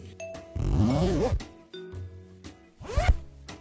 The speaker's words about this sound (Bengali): লাবণ্য উল্লাসিত মুখে সুদৃশ্য ভ্যানিটি ব্যাগের চেন খুলছে